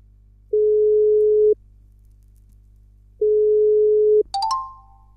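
Telephone ringing tone while calling someone: two long, steady, mid-pitched beeps separated by a silent pause, then a sharp click and brief higher tones.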